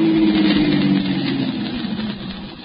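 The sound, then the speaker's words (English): A car pulls up in front of a power plant, its engine a low, steady humming drone that slowly fades and settles as the vehicle comes to rest. “As the Blue Beetle nears his destination, he sees another car pull up in front of the power plant.”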